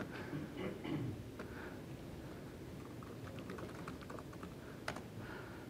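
JavaScript code being typed on a computer keyboard: quiet, continuous keystrokes in an irregular but steady patter, with an occasional sharper key tap.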